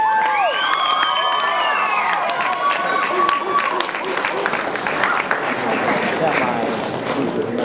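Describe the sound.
Crowd applause and cheering to welcome performers on stage: dense, loud clapping mixed with shouts and high whooping calls, strongest early, with voices mingled in throughout.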